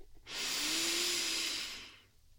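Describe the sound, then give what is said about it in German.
A single deep breath in during a yoga practice: a soft, airy inhale that swells quickly, holds steady for well over a second, then fades. “Und genau mit diesem Gefühl der Fülle, der Ausgewogenheit nimmst du jetzt einen tiefen Atemzug.”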